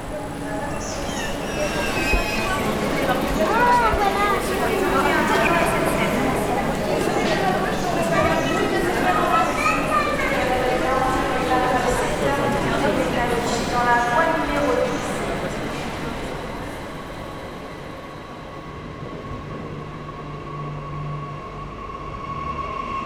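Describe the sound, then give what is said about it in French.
Ambience inside Rennes railway station: a steady wash of voices and activity with faint rail rumble beneath, holding level for most of the stretch before thinning out near the end. “Il y est question des ambiances sonores de la gare de Rennes et de la manière dont elles sont vécues par celles et ceux qui la traversent ou y travaillent.”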